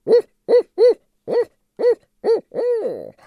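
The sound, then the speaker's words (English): Barred owl hooting: seven clear, resonant hoots in an uneven rhythm, the last one drawn out and longer than the rest, alone against silence. “But now people might be hearing the barred owl, the one that goes,”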